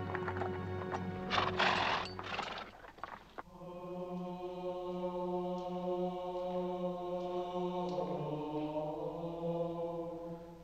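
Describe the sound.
Horse hooves clip-clopping as a rider pulls up in front of a building in a small town, with a louder, busier stretch early on giving way to a steadier, even passage.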